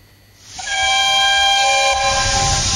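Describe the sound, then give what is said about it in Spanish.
A locomotive starting up sounds a loud, sustained multi-tone horn or whistle that swells in after about half a second and holds steady to the end, with no talking. “Le digo a nuestro operador que arranque la locomotora”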